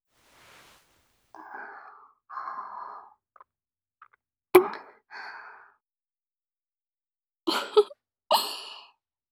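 Soft kisses for a wedding vow kiss: a few sharp lip smacks mixed with quiet, breathy sighs and exhalations, spaced out by stretches of silence.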